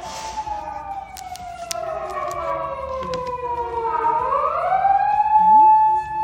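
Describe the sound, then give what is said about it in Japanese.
An ambulance siren passes on a nearby road, a wailing electronic tone sliding steadily down in pitch, then turning and rising again as it goes by, moderately loud and clearly audible throughout. “めっちゃ救急車の音入っちゃった 殺人事件か、 ね、道路がめっちゃ近いんですよ、ここ”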